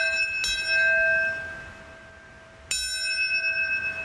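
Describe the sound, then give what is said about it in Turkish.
Church bells ring at a memorial ceremony for the September 11 attacks in New York, two distinct strikes, each leaving a long, shimmering tone that slowly fades before the next clang. “Çanlar, sirenler çaldı.”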